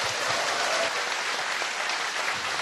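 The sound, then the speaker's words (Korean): An audience applauds warmly to welcome guests, with dense and steady clapping that continues throughout at an even level and no voices on top. “큰 박수로 맞아주십시오.”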